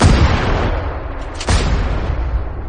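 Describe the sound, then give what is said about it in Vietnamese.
Loud gunfire sound effect of a fearsome gun firing indiscriminately around a lake, a sustained, rumbling barrage of booming blasts with a fresh, sharp burst partway through. “Khẩu súng đáng sợ bắt đầu tàn sát bừa bãi quanh hồ nước.”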